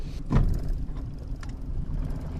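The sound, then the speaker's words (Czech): A river police boat sets out on the Slapy reservoir with a steady low engine rumble and a heavy thump near the start, with no talking. “S vedoucím poříčního oddělení Slapy Davidem Bernardem teď tedy vyjíždíme na člunu.”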